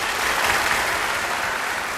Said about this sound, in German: Kräftiger Applaus für den Oberbürgermeister.